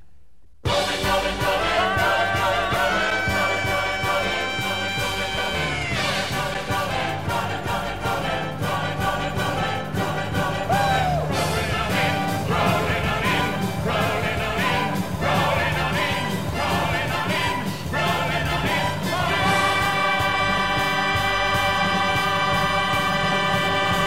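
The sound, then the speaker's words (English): Bumper music for a radio talk show plays loud and continuous, a dense instrumental texture with a steady rhythmic pulse and no talk over it. “Boom. Great bumper music. Probably bad news if we're playing it.”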